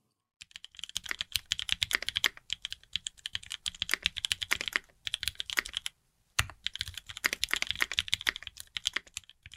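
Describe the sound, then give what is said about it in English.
Fast, clacky typing on a mechanical keyboard, with dense crisp keystrokes running in steady bursts broken by short pauses, loud and with no voices. “What you're hearing right now is the sound of a mechanical keyboard.”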